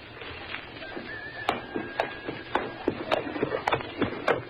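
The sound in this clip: Horse hooves clop as a horse-drawn wagon sets off: irregular, sharp clip-clops that start sparse and grow busier and louder, with soft rattling and rolling noise underneath.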